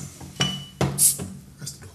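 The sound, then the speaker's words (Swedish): Metal clinks of a bottle opener on a cold bottle: three sharp clinks with a brief high hiss between them as the cap comes free, quiet and with no talk. “Ja, nu har jag hittat öppnaren. Då öppnar jag flaskan.”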